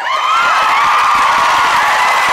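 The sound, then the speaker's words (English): A live talk show audience cheers and applauds, a loud, continuous roar of voices with high whoops and shouts over clapping that stays even for a couple of seconds. “Give her a round of applause for that one.”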